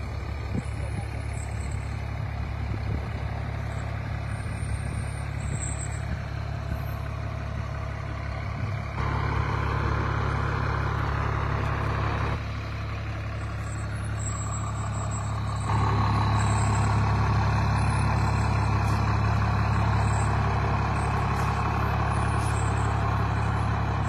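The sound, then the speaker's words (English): A truck engine idles with a steady, heavy low rumble as the truck is moved into the back, its level shifting slightly as it runs on without a break. “Gonna move the truck into the back.”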